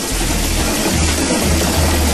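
Lottery ball machine spinning its numbered balls, giving a loud, continuous whirring rattle with a low steady hum beneath it, unbroken from start to finish.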